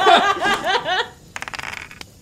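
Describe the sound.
Dice roll in a tabletop role-playing game, heard as a quick clattering run of small hard clicks. Laughter and voices come just before.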